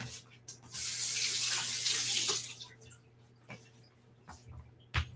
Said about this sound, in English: I'll wash my hands really quick.